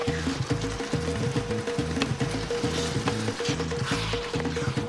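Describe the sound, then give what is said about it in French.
Loud, steady sizzling as tamarind sauce goes into a pan of frying onions, garlic, sweet peppers and pickled vegetables, with a regular pulsing crackle throughout. “Puis, elle verse le coulis sur une poêlée d'oignons, d'ail, de piment doux et de légumes marinés.”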